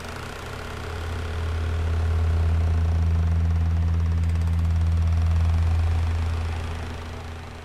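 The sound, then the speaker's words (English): A generator roars in the Fijian wilderness, a steady low droning hum with strong deep harmonics that swells in over the first couple of seconds, holds evenly, then eases off near the end. “The noise you're hearing right now is not an electric didgeridoo purring outside of Tribal Council, but it is a generator, roaring in the Fijian wilderness,”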